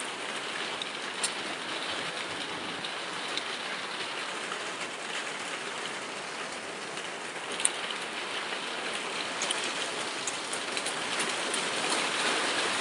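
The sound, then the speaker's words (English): Heavy rain falling hard in hot weather: a dense, steady roaring hiss that holds for the whole stretch, with a few faint drop ticks on top. “Temperature has dropped from 100 degrees to 80 degrees, and the rain is coming down really hard.”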